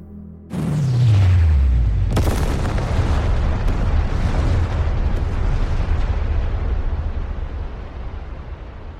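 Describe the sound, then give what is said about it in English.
Explosion effect of thermonuclear warheads detonating: a deep blast whose low boom drops in pitch, a second sharp burst soon after, then a long, loud, rumbling roar that slowly fades. “Directed to all the machines carrying thermonuclear warheads. Detonate.”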